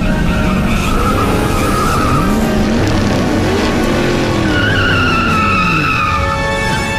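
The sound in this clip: Tires squeal and skid as a car races at speed, the loud, continuous screech bending up and down in pitch over a steady engine roar.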